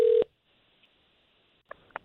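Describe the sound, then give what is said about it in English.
A telephone keypad tone sounds briefly as a call is placed to a radio morning show guest, followed by a silent line and two faint clicks. “All right, so let's see if we can't get him on the line. We appreciate you giving us his phone number.”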